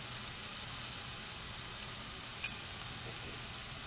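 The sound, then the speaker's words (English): Chopped onion cooks in a pan with a little salt, giving a steady, even sizzle and hiss. It stays faint and constant throughout, with one tiny pop partway through. “Salt helps by removing the moisture from the onion and cooks it faster.”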